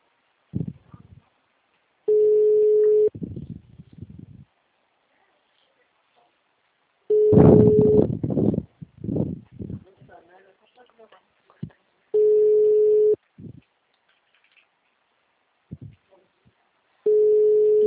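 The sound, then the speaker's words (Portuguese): A telephone ringback tone heard while a call is being placed: four steady one-second tone bursts at even intervals, with people talking in the gaps and partly over one of the tones. “Deixa o telefoninho até a cliente atender.”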